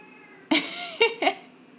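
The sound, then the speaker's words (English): A house cat meows three times in quick succession, the first call longer and drawn out, the next two shorter and clipped, over a faint background hum. “I'm so sorry about my cat. I don't know why he's doing that.”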